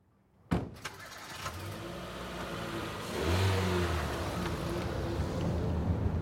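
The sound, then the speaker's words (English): A car driving on a road in southern Brazil gives a steady engine hum and road rumble after a sharp knock at the start. The engine swells louder about halfway through as it accelerates. “I'm driving even further south now, almost to the very bottom tip of Brazil, to a town called Pelotas.”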